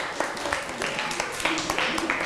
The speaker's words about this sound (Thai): นั่งลงปรบมือให้กับเพื่อนหน่อยครับ